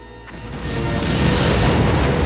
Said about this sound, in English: The unconscious figure of the boy warrior materializes on the floor of the shuttle just as the Kazon ship explodes.